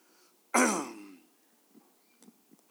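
Someone clears their throat during a sermon: one loud, rough rasp that fades over about half a second, followed by a few faint small noises and then quiet.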